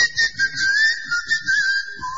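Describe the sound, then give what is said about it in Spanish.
A person whistles during a tongue-function test, holding a clear, high, steady tone that wavers a little in pitch and dips lower at the very end. “si pasa esta prueba es que tiene la lengua le funciona perfecta, que es el silbido. En el silbido trabaja la lengua.”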